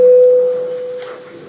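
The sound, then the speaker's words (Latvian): A parliament voting bell sounds as a steady electronic tone at a single pitch. It is loud at first, then fades gradually over about a second and a half. “Lūdzu zvanu, balsosim par 67. Juridiskā biroja iesniegto priekšlikumu. Lūdzu balsošanas režīmu.”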